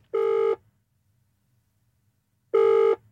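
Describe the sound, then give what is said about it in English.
Ringback tone on an outgoing phone call, two short, steady buzzing tones separated by a long silence. “So let's have a quick ring.”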